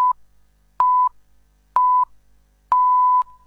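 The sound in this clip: Hourly time signal pips on a Buenos Aires radio station: steady mid-pitched electronic beeps, evenly spaced, with two short pips after a clipped opening tone and a longer final tone, clean and alone.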